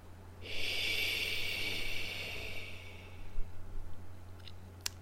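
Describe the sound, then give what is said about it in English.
A whispered "he" healing sound, voiced as a long, breathy hiss that runs for about two and a half seconds and then gives way to quiet, with a few faint clicks near the end. “So how do we do this? Well, the sound is he in a whisper, which sounds like”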